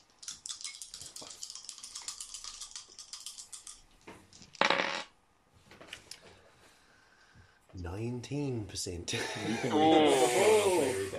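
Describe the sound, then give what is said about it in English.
Percentile dice rolled during a tabletop role-playing game, heard as a rattle of many small, sharp clicks and then a louder clattering burst, followed by people talking. “And I'm going to get you to roll percentile dice and tell me if you roll under 15.”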